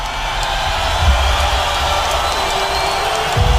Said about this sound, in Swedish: När Connor kliver ut i strålkastarljuset stiger publikens jubel till nya höjder.